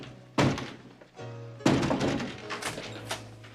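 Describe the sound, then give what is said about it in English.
Heavy knocking on a house door: a few deep, hard thuds at uneven intervals, the first two loudest and the later ones lighter, over a low steady hum. “Meanwhile, Pop knocks on Play's door.”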